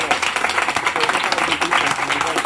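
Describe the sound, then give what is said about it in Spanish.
Short burst of audience applause, brisk clapping from a group that stays lively and even for a couple of seconds. “Un aplauso para las pollas.”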